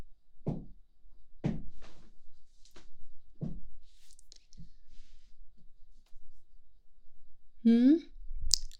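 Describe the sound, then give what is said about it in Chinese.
Door being locked: a few sharp clicks and knocks of the lock, spaced roughly a second apart and fairly quiet, with a short squeaky tonal sound near the end. “我锁门？我锁门是不想有人来打扰。”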